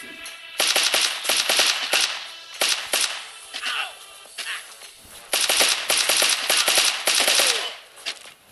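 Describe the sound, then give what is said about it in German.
Automatic gunfire in a shooter video game comes in several sharp bursts of rapid cracking shots separated by short gaps, loud and crisp. “Nein, einer hat mich erwischt. Jetzt bin ich tot. Der hat mir voll den Headshot gegeben.”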